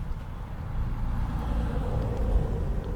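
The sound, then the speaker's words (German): A postal delivery vehicle driving past makes a steady low engine rumble with road noise. It swells slightly near the end, and no voices are heard. “Die Post fährt ja auch vorbei.”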